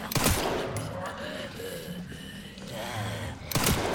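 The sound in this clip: Gunshots in a video game shooter fire as a few sharp, loud bursts, at the start and again near the end, with voices talking between them.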